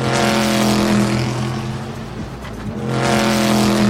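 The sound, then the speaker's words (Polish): A Chevrolet Corvette race car passes with a loud, droning engine roar of steady low tones that dip briefly in the middle and then swell back up. “oczywiście Chevrolet Corvette, to trzęsienie ziemi jest, jak on przejeżdża, no coś niesamowitego. Tak jakby ogr połknął, nie wiem, ul z szerszeni, chyba coś takiego. No tak, to mniej więcej jest taki dźwięk.”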